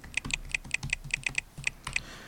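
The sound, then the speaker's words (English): Typing on a computer keyboard while entering an Apple ID and password: many quick, light key clicks in an uneven rhythm, fairly faint and with no voices over them. “I'm going to type in my iTunes and App ID.”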